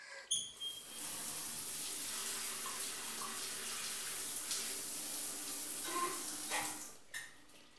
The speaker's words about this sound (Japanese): ここは一回泡を流して